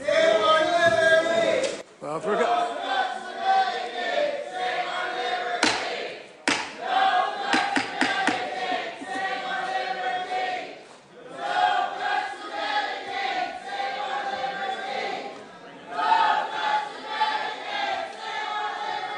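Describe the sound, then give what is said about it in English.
Protesters disrupting a Senate Finance Committee hearing on the Graham-Cassidy bill: a loud, continuous crowd of voices chanting and shouting, with occasional thuds throughout. “The Senate Finance Committee held the one and only hearing on Graham-Cassidy on Monday afternoon. The hearing was delayed due to protests in which 181 people were arrested.”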